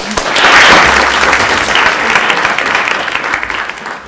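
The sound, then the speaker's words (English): Audience applause welcoming a guest speaker: loud, dense clapping that peaks early, then continues steadily for about four seconds. “please do join me in welcoming Anne Fitzgerald to today.”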